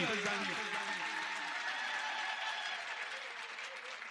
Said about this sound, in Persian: جانانه کف نزدی یا فامیل بازی هم بخوایی بکنی امام رضا از ماست دست همه بالا بیاد کف بزنیم.